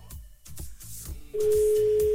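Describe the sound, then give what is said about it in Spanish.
A telephone call that goes unanswered to voicemail: after a murky, quieter opening, a loud, steady, single-pitched tone cuts in partway through and holds unbroken to the end. “no contesta Magdalena. Buzón de voz.”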